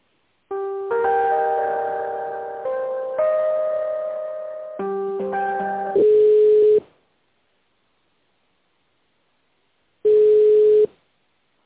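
Telephone line tones while a call is transferred: a short synthetic melodic sequence of steady electronic notes, then two long, even ringing beeps separated by silence, loud and clean with no voices.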